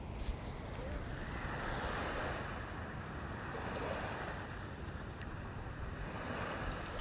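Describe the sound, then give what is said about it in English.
Calm lagoon water beside a bungalow, a soft, steady wash of gently moving water blended with low wind noise, continuous and faint with no distinct waves. “I don't know if you can hear the water behind me. I'm going to be quiet for a while.”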